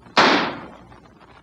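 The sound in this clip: A gunshot fired at a man inside an empty, deserted house. One sharp, loud bang is followed by a decaying noisy tail, with no voices.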